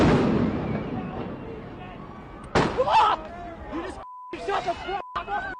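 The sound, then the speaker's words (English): Loud bangs from LAPD rubber-bullet fire at protesters, with police on horseback, ring out over crowd babble. A couple of sharp bursts decay quickly, followed by shouting voices and a steady beep tone near the end. “Here's actual footage. Hours of standing off, this situation has now rapidly deteriorated. The LAPD moving in on horseback, firing rubber bullets at protesters, moving them on through the heart of LA.”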